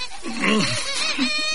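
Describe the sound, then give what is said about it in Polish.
A baby cries with a wavering, fairly loud wail whose pitch rises and falls in a few pulses, heard on its own without talk. “Twoje dziecko płacze, a ty nawet nie próbujesz go uspokoić.”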